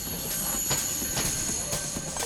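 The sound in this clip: A train pulls into a station, its wheels rumbling steadily under a high, sustained metallic squeal, with a few brief bursts of louder clatter.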